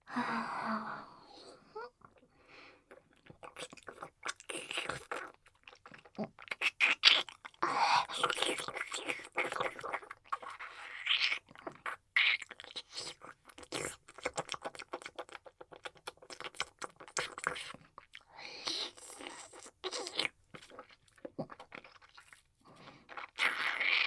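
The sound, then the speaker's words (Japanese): Someone tastes ice cream with many irregular, crisp crunching bites and wet chewing sounds, close and fairly quiet, with soft whispering in between. “このアイスはどんな味かな？味見させてもらいます。”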